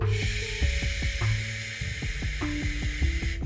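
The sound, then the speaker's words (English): A slow, steady exhale hissed through clenched teeth during a relaxation breathing exercise, a continuous airy sizzle held for the whole stretch over low sustained musical tones. “And now through gritted teeth, so the teeth together, we exhale.”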